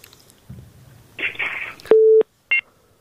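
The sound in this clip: A telephone busy tone follows a cut-off call: muffled line noise and crackle, then a steady electronic tone and a brief higher beep after a short gap.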